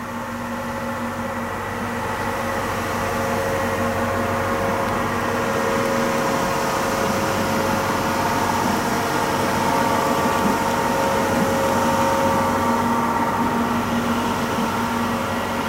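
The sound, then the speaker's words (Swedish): Ship machinery recorded underwater by a hydrophone on a buoy off Landsort: a steady, unbroken low drone carrying several sustained tonal hums, even in loudness throughout. “Nu ligger bojen där utanför Landsort och guppar och spelar in fartyg då.”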